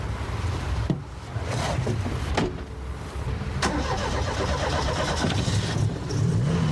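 A car engine revs and drives away, with a steady rumbling drone broken by a few sharp revving surges.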